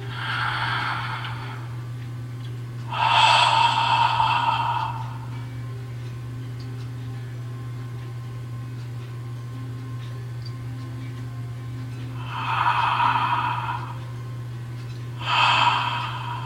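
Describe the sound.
Loud, deliberate breaths in a meditation breathing exercise: two pairs of strong, hissing breaths separated by a long held pause of near silence. A steady low hum runs underneath throughout.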